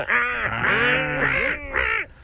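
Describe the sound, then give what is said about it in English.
Gull calls ring out in a few loud, harmonic squawks that bend up and down in pitch and run almost continuously, with a short break before the last call. “A seagull. Oh, yeah, that was a bit of a gull, wasn't it?”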